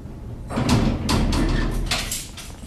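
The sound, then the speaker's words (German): A heavy iron door scrapes and grinds shut in a few rough bursts. The sound is locking the speaker and others into a bare holding room during a trip in Uzbekistan. “schließt die Eisentür. Wir sind gefangen hinter Schloss und Riegel.”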